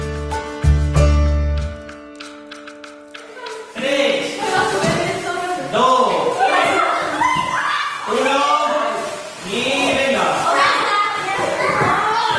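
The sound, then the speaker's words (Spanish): Children shouting, laughing and playing during a primary school physical education class at a rural school in Spain's Ribera del Duero. Many overlapping young voices stay lively throughout, following a few seconds of music at the start. “Escuchas una clase de educación física en primaria, de las miles que hay en España cada mañana de lunes a viernes.”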